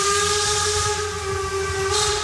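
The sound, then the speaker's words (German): A narrow-gauge steam railway train on Rügen island sounds its whistle in one loud, sustained, steady tone that lasts the whole clip, over a low rumble from the train. “So heißt nämlich diese Schmalspurbahn, die hier über die Insel Rügen fährt.”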